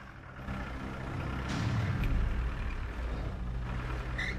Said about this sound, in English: The 4x4 pulls into base camp.